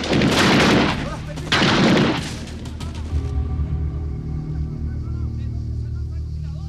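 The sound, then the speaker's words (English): Gunfire from military personnel peppering a vast tree-covered hillside: two dense, loud bursts of shots close together, then a lower lingering rumble that fades. “They pepper a vast tree-covered area with bullets.”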